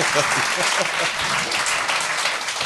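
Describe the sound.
Pity applause: a short round of clapping from a small group, steady and dense for the whole moment without a clear start or end.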